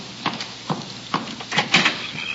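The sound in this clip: A back door being opened, heard as a few short knocking and scraping thumps spaced irregularly, with the last ones coming closer together.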